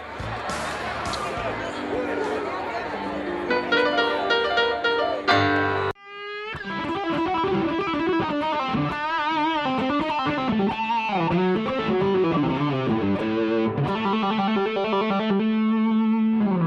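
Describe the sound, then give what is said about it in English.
A distorted electric guitar plays the blues scale in A, a loud run of sustained single notes in succession, with a brief break partway through before the notes continue. “And this is a sound of the blues scale.”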